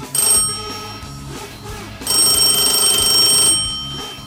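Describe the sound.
A mobile phone ringtone rings steadily, with bright tonal chimes that swell louder partway through and then fade toward the end.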